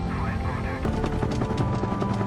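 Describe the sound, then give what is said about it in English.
A helicopter in flight, its rotor chopping steadily. The loud, dense thumping holds evenly throughout with rapid, regular pulses. “And this is no ordinary chopper. It's got special powers, and once we're airborne, you'll see just what I mean.”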